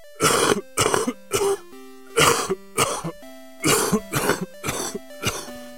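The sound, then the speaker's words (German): Loud, harsh coughing from a man who has just drawn on a crack pipe, coming as a rapid string of about nine raspy, throat-clearing bursts with short gaps between them, alone without talk. “Mein Nachbar nahm einen Zug von seiner Crackpfeife, hustete laut und sagte:”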